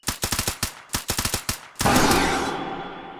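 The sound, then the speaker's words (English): Silenced gunfire from two weapons in quick bursts: two rapid strings of sharp, clipped cracks, followed by a heavier rushing burst of noise that slowly fades away. “three quick silent bursts from both weapons stitched across its head and put the creature down”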